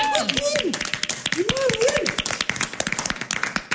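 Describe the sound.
An audience clapping at a karaoke-themed show: many sharp, distinct claps in a quick irregular run, with people talking over the first half before the clapping continues alone.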